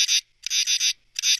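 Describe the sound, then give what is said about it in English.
A common true katydid calls with loud, harsh, raspy pulses grouped into rapid bursts, separated by brief silences, alone without any voices. “That is the sound of the common true katydid.”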